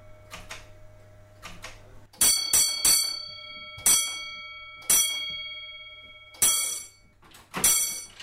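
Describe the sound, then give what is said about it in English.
Metallic clunks and clicks of a railway signalling token being turned in its lock and withdrawn: two faint clicks first, then several sharp, ringing knocks, some in quick succession and others spaced apart; no talk. “And the token's been turned in its lock and taken out.”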